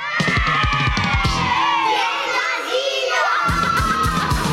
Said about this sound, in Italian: le bambine dell'asilo stanno facendo casino